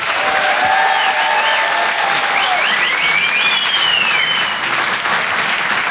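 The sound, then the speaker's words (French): Audience applause and cheering for a comedian at a live comedy show: dense, loud, continuous clapping with sliding whistles rising above the crowd. “Faites du bruit s'il vous plaît pour Nash. Rire et chanson. Faites du bruit s'il vous plaît pour Harold Barbé.”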